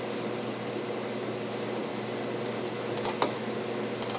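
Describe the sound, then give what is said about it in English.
Typing on a computer keyboard: a few soft, scattered key clicks over a steady hiss of background hum, the taps grouping more densely toward the end. “I'm going to just use the keyboard.”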